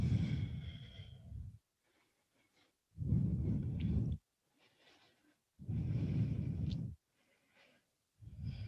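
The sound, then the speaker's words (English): Slow, deep breathing during a guided stretching exercise: three long, loud breaths, each about a second and a half, separated by quiet pauses, with a fourth beginning at the end. “Take one of those with your own breath. I'll breathe with you. Make it up if you're not sure what to do. Just breathe.”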